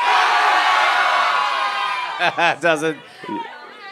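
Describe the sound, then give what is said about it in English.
An audience at a live recording yells their own first names as loudly as they can, a dense wall of shouting that fades over about two seconds, followed by a few loud individual voiced bursts. “just yell your first name as loud as you can”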